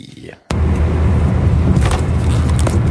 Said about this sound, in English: I'm driving! Scotty B! So I'm driving back north from SoCal.